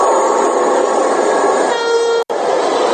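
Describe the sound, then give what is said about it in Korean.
Loud, continuous rushing roar of a fourth-generation Korean high-speed train, a prototype that reached 421 km/h, sustained throughout with one sharp, brief dropout near the end. “저 기차 서울역에서 보신 적 있으십니까? 2년 전에 완성됐습니다. 안정화 단계도 다 끝났고요. 근데 왜 저 기차는 여러분들이 서울역에서 못 보실까요?”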